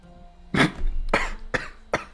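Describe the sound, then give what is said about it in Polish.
A man coughing after choking on something: four harsh, forceful coughs in quick succession, each a short noisy burst, loud and isolated with no speech. “Przepraszam, zachłysnąłem się.”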